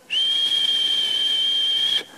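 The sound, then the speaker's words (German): Someone imitates the whistle of a kettle heating on a fire with one sustained, high, steady whistling tone and a light breathy hiss. The tone slides briefly upward at the start and cuts off after about two seconds. “schon mal einen Wasserkessel gesehen, wo es immer heißer wird mit dem Feuer. Und oben ist so eine Pfeife.”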